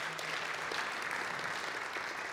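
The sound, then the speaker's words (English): Dense, steady audience applause fills the whole stretch, an even and continuous wash of many hands clapping together at moderate volume, without pauses or distinct single claps. “you can applaud all of that”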